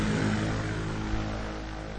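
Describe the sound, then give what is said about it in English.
Steady, loud propeller-engine drone from an airship (blimp) as the ground crew floats it out onto a runway at Barton. The low hum stays even with a continuous rumble throughout, easing slightly toward the end. “As the aircraft was gently floated out onto one of the runways at Barton by the ground crew”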